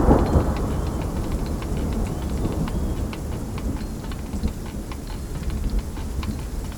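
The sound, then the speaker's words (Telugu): An unseasonal storm pours down as a dense, steady roar of heavy rain, opening with a deep rumble of thunder and carrying scattered ticking drops throughout. “అకాలంగా వచ్చిన ఈ తుఫాను తన విశ్వరూపం చూపించడం మొదలుపెట్టింది”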